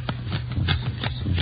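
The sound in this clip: Playing cards being counted out during a two-handed card game with fifteen cards dealt. A few soft, papery card flicks come in loose rhythm over a steady low hum.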